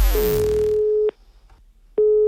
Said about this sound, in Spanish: San Bernardino va a llamar a Sandra desde la DGT para ponerle en una situación bastante, bastante complicada